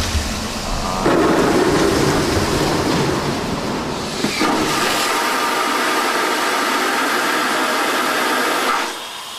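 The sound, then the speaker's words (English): A vacuum toilet on an A380 airliner flushes waste along a long pipe run to the waste tank during engineering tests, a loud, broad rushing roar that surges at the start, swells again midway and cuts off near the end. “Just seconds later, the waste arrives at the tank, and flushed with success, the engineers bring the A380 another step closer to reality.”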